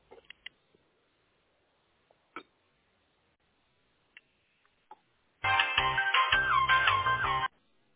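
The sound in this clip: Phone ringback melody while a call is transferred to tech support: a few faint clicks, then a bright, harmonic musical tone lasting about two seconds before cutting off.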